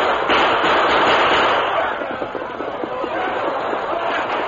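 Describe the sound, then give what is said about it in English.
Gunfire at a mine entrance in a radio drama: a loud, dense burst of crackling shots and thuds over a steady noisy roar, easing to a quieter stretch of scattered shots. “The men at the mine waited quietly, their guns ready, their faces grim with determination. At last, the Lone Ranger gave the command. Open fire!”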